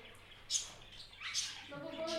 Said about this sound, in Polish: Jaka ta papuga jest epicka.